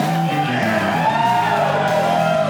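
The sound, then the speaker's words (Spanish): A studio audience cheers and whoops at the close of a show. The mass of voices sustains a steady, bright roar, with high whoops riding on top. “Ese fue el público que nos acompañó hoy.”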